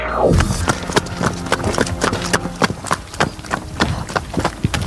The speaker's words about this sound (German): Hörst du, in welcher Gangart unser Ronny Pony gerade läuft?